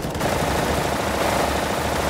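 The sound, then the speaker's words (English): Rapid gunfire in an audio drama battle scene, a dense, unbroken roar of overlapping shots at a steady loudness throughout. “Open fire! They're not going down! Keep shooting!”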